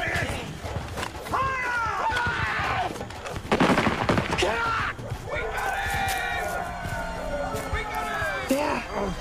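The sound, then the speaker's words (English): Pursuers fire into an open forest glade during a chase. A burst of several rapid shots crackles near the middle, with a few sharp reports later, while a voice speaks throughout. “Dashing into an open glade, the pursuers took the opportunity to fire out into the open.”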